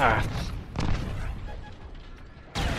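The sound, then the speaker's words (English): Booming bursts from missile launches in a shooter video game. A few sharp blasts come at the start, in the middle and at the end, with softer game noise between them. “Missiles launched.”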